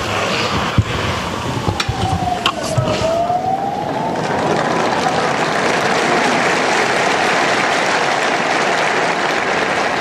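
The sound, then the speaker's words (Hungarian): Applause from the faithful thanking Pope Francis for his blessing: loud, continuous clapping that fills the whole stretch and grows fuller and steadier in the second half. “Ma sem maradt el a taps, amellyel megköszönik Ferenc pápa áldását, az ő tanítását.”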